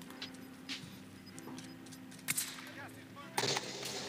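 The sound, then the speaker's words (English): Gunfire in a shooter video game: two louder sharp shots stand out among a few fainter cracks over a quiet, steady game background. “Oh, they're shooting at you.”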